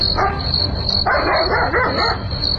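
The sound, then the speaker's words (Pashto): A dog barks in a few rough bursts over a constant, high, insect-like chirring drone and a low rumble. “نه پوهیږم چې دا سپای ولې غاپي”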